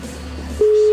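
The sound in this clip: A telephone ringing tone after a number is dialed: a steady, low single tone starts abruptly partway through and holds to the end, after a faint hum.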